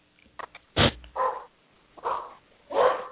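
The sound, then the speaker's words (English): A cocker spaniel barks: two short soft yips, then four loud, sharp barks spaced irregularly, the sound somewhat muffled and lacking brightness. “Yeah, he's a cocker spaniel. I don't think he would bark at a burglar, but he sure barks at a squirrel.”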